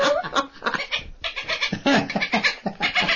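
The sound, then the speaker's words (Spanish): A person imitating a chicken, with a voice making quick, choppy clucking bursts in an uneven rhythm, fairly loud and without clear talk. “Y también es una gallina. Una gallina, ¿cómo se dice? Que es una gallina. Chicken. A chicken.”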